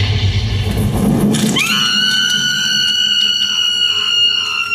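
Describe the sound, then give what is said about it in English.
A fantasy gun lets loose a fire round: a rough, roaring rush of noise lasts about a second and a half, then swoops sharply up into a loud, bright ringing tone with layered high overtones that holds steady to the end. “I had only one chance, and I took it. One of the sharp, crooked-toothed monsters on the end was closing in tightly, closer than any of the others. I let fly with Tony's Firebird round.”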